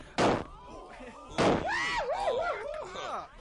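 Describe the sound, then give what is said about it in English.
Two sharp gunshot bangs crack out in a radio drama, fired over a group of people's heads, about a second apart. An agitated voice follows. “Jimmy, fire some shots over their heads.”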